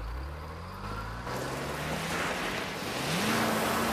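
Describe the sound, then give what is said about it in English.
A tanker truck's heavy engine roars as it plows through an electrified wire fence into a wrecking yard, a sustained low rumble that grows louder and rises in pitch toward the end. “A tanker plows through an electrified wire fence and enters the wrecking yard, closely followed by a fleet of 4x4 vehicles.”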